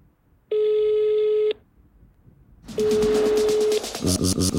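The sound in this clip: Telephone dialing and ringing for a call: a steady ringing tone lasting about a second, a short pause, then a noisier burst carrying another tone, followed by quick pulsing beeps.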